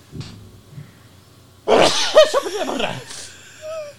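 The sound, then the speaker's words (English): A single forceful sneeze, called a demon sneeze, bursts out suddenly after near quiet, harsh and loud, then trails into a shorter voiced, tonal sound. “That was a demon sneeze.”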